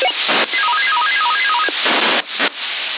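Calling tones on a CB radio channel: a quick run of short stepped beeps that hop up and down in pitch, set in steady radio hiss with bursts of static.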